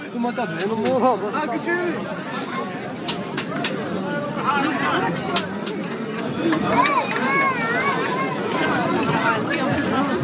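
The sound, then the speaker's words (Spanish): A bustling town square crowded with people and food stalls under awnings and tents fills with steady overlapping chatter from many voices, punctuated by occasional sharp clinks and clatters. “lo que queríamos recoger es efectivamente el sonido de esta plaza que bulle de gente y de establecimientos donde comer, con sus toldos, sus carpas”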